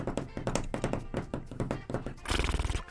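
Horse neighing as a sound effect in a radio ad jingle for a Chilean veterinary supply chain: rhythmic hoof-like thumps and clip-clops with a whinny, dense and punchy throughout.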